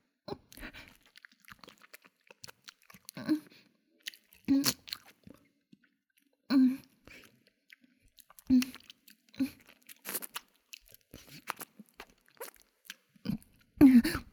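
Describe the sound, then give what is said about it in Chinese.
Someone chews and bites into a boxed lunch: quiet, irregular crunchy and wet mastication sounds, many separate bites spaced by short pauses. “这盒饭 为什么这么腥啊？我吃，我吃，不管了。”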